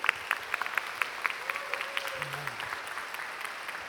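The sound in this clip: Audience applause welcoming a pastor, faint and scattered, with individual claps running through the whole clip and a brief low voice partway through.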